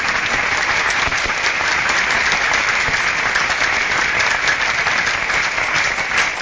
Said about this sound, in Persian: عشق امام جواد داری، دست تو بالا کن، کف محکم بزن.